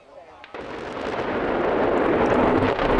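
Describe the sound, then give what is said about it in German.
A demolition blast brings down a huge chimney of a former lignite-fired power plant: after a quiet half second, a broad, heavy roar sets in abruptly and swells into a sustained, loud rumble that carries on to the end. “Heute hat der Energiekonzern RWE einen riesigen Schornstein des ehemaligen Braunkohlekraftwerks Frimmersdorf gesprengt.”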